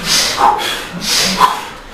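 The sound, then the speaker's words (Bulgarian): Forceful breathing during a breathing exercise: two long, powerful breaths with a rushing, hissing texture, each swelling and fading, heard alone without talk. “нека да бъде мощно, нека да бъде мощно дишането.”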